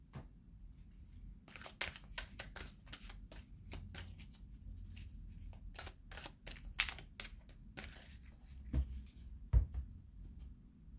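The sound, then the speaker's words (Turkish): Shaman healing tarot cards are shuffled and drawn, producing many quick, crisp riffling crackles and paper flicks in an uneven rhythm, with a few louder taps near the end; no voices are heard. “Buraya bir şifa kartı. Şaman şifa kartlarından çekelim.”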